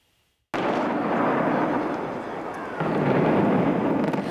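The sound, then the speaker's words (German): An explosive demolition brings down a large unfinished concrete hotel shell near a motorway and airport. A sudden loud blast breaks in and becomes a sustained, heavy roaring rumble that swells again toward the end. “Heute, vor 25 Jahren, wurde der Kaiserbau gesprengt.”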